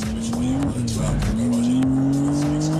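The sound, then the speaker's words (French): A car accelerating at full throttle along a straight on a racing circuit. The engine gives a loud, continuous drone whose pitch climbs steadily, with one brief drop partway through, over a bed of rushing wind noise. “Allez, c'est parti pour la ligne droite à fond absolu. Ça accélère bien.”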